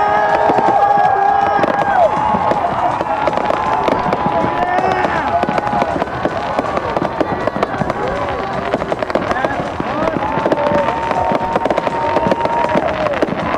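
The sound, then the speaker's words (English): Fireworks crackle and fizz from a firework figure whose arm ends spout sparks, a dense, steady hiss packed with rapid pops that stays loud and unbroken throughout. “More intense now. The ends of the arms are now spouting sparks.”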